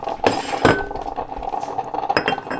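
Breakfast dishes and a coffee cup clink in a kitchen, a few bright glassy knocks standing out over a low run of softer clattering.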